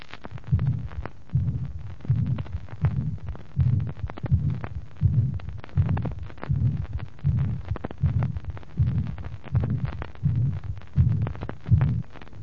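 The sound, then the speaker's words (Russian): Heart sounds from a patient with combined mitral valve disease and mitral regurgitation, heard at the apex before surgery: a weakened first heart sound and a long, blowing systolic murmur. The beats repeat in a steady rhythm throughout. “До операции на верхушке выслушивается ослабленный первый тон, длинный дующий систолический шум.”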